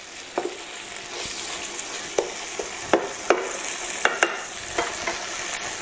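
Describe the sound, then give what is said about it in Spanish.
Onion sizzles steadily as it fries in a pan, with a few sharp clicks and scrapes as it is stirred. “Bueno, pues esta es la cebolla que la tenemos posadita, posadita, posadita. Fijaros.”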